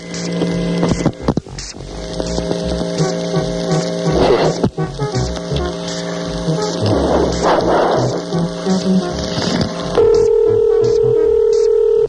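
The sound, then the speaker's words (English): Telephone dialing tones while someone calls an operator: a run of steady electronic tones broken by crackly noise bursts, then a different sustained tone near the end. “Dialing for operators.”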